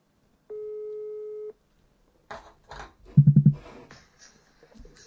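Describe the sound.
A telephone call tone while dialing someone: one steady, mid-pitched tone sounds alone for about a second, followed by voices talking.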